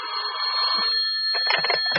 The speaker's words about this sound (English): It was ready for the finishing room, and then the phone rang.